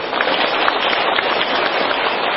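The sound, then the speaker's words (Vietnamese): An audience applauds during a Buddhist gathering to venerate a jade Buddha statue in Vietnam. The clapping is loud, dense and continuous, a steady wash with no breaks. “Xin mời quý vị tự khen mình bằng một tràng pháo tay.”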